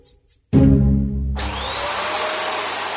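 A household vacuum cleaner switches on abruptly, its motor rising to a loud, steady whirring roar with a broad hissing airflow that holds constant.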